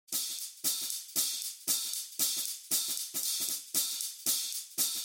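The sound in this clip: Open hi-hat strikes drive a swing jazz drum pattern, each hit a bright, sizzling wash that rings and fades before the next, repeating in a steady, evenly spaced pulse.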